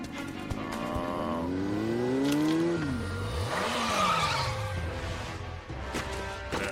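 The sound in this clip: Car tires squeal in long, gliding tones that rise and fall over a loud, roaring engine as the car skids. The sound is steady and heavy throughout, with no voices.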